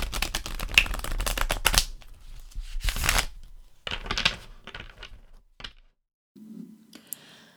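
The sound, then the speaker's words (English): Cards being shuffled and pulled for a five-card reading: a dense, rapid riffling clatter, then a few softer slaps and taps as cards are laid down. No one speaks. “So what we will do is I will pull the cards and we'll get straight into it.”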